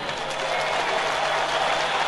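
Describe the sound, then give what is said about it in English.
Hundreds of thousands of people in Kenya cheer and applaud as the president signs a new constitution, forming a steady, dense roar of crowd noise with no pauses. “Hundreds of thousands of people erupting into cheers as Kenya's president signed a new constitution today.”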